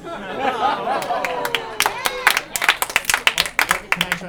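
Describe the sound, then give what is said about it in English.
A round of audience applause at a live comedy show: a voice at first, then many spread-out claps take over the second half alongside crowd chatter. “Round of applause.”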